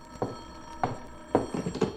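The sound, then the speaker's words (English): A telephone rings in a few short, faint bursts with brief pauses between them, the later ones coming closer together. “I kissed her and it started bells ringing. One of the bells I didn't like. It was the phone.”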